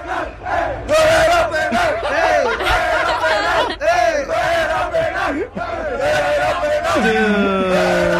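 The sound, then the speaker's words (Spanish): Mexican fans celebrating in the stadium at the Morocco vs Netherlands World Cup match: a loud, continuous crowd roar of chanting and shouting, with sustained sung tones rising and falling above the din and a brief dip before the cheering surges again. “Y así celebraron los mexicanos que estaban en el estadio para el partido de Marruecos versus Holanda. Escucha.”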